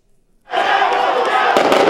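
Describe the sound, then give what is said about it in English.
Rubber bullets and tear gas canisters exploding as Bolivian police fire on protesters trying to break into the National Electoral Court in the capital: a sudden, loud, roaring wall of noise with crowd shouting and sharp bangs near the end. “Monday evening, Bolivia's police shot back at protesters as they tried to break into the National Electoral Court. The sound of rubber bullets and tear gas canisters exploding rocked the capital”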